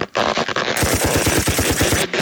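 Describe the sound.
Rapid automatic gunfire used as a cover-fire sound effect: a loud, steady stream of many quick shots in even bursts that ends abruptly.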